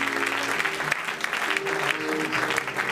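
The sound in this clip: An audience applauds during a church service, a dense, steady wash of clapping that stays even throughout, with faint voices mixed in underneath.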